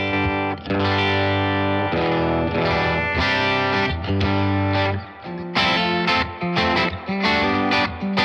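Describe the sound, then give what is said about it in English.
Electric guitar plays through an amp with reverb, booster pedal off, on the back pickup. Loud, sustained strummed chords ring out slightly gritty, then a short gap gives way to quicker, choppier chord hits. “Now the RC booster's off. We're back to just amp and reverb. That's just the amp.”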